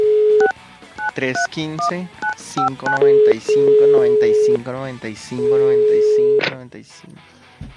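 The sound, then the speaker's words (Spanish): A telephone number is dialed with a rapid run of many short touch-tone beeps, some longer steady tones, and voiced sounds mixed in, all fairly loud. “Ahora sí, a lo que vinimos. Vamos. A marcarle al Instituto Milford.”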